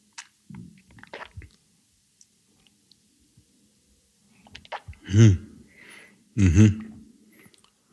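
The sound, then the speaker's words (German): Mouth sounds come from chewing a sip of 64% rum at a tasting. Soft wet smacks and clicks give way to a quiet pause, then two louder bursts with a voiced, hum-like tone. “Okay, genug gerochen, oder? Genug gerochen, jetzt wollen wir das Ganze schön probieren.”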